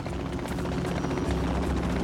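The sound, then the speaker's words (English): Helicopter rotor noise as the craft comes down to land inside a white circle on a large green lawn: a steady, dense whirring drone with rapid blade chop throughout and no voices. “brings the helicopter down to land inside a white circle on a large area of green lawn”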